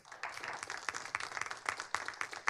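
Faint, scattered clapping from a small audience welcoming three guests at a Cato Institute event, a few dozen quick hand claps of uneven rhythm spread over a couple of seconds.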